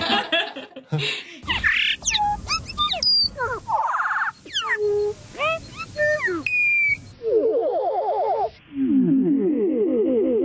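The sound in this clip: Bird song recorded at Tafranui: a rapid run of whistled chirps and sharp sweeping notes, then a repeated trilling syllable played progressively slower and lower, turning into a wobbling, warbling tone.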